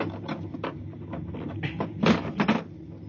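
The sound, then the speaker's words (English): A metal floor panel is pried up to reach a bulkhead release, with soft scraping and knocking and then a couple of louder metallic clunks near the end. “Where's the release? Under the floor panel. You can pry it up. All right, hurry. I got it, I got it.”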